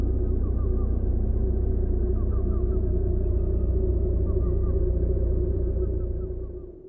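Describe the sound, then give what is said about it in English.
Sound art installation inspired by extremely low-frequency submarine transmitters, from an exhibition pairing artists and writers around the Great Lakes: a dense, steady low rumble with a pulsing texture and faint chirping tones drifting above, fading out at the end. “Collazo-Lorenz and Monson explored the sites and transmissions of the transmitters in sound, video, and poetry. Their piece is spooky and rhythmic and beautiful. The sound you hear now is from their installation, and it gives you a good sense of the piece's aura.”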